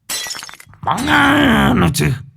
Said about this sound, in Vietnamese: Lão Hùng cầm cái ly thủy tinh ném thẳng vào cửa, vỡ đánh choang một cái.